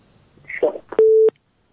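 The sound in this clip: A single steady mid-pitched telephone beep marks a call connecting on a call-in show. It lasts about a third of a second, with sharp clicks at its start and end, right after a brief burst of talking.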